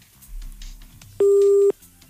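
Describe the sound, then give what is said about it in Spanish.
Busy tone after a dropped phone call: a single steady electronic beep about half a second long, loud and clear above faint background noise. “Se le cayó la llamada.”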